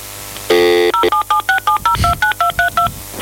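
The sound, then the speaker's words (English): A mobile phone plays touch-tone dialing beeps as a number is entered. One longer tone comes first, then a quick, evenly paced run of many short, clear beeps at shifting pitches. “we're going to call him up on his mobile phone.”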